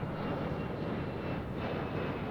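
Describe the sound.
Steady roar of an airplane's engines heard inside the cabin as the plane comes in to land, a constant low rumble and hiss with no talking.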